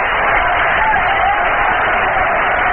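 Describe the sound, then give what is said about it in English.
Dense crowd murmur from a big crowd stirring at a baseball game between Cincinnati and New York, a steady, even wash of many voices with no distinct peaks or outbursts. “Big crowd stirring around.”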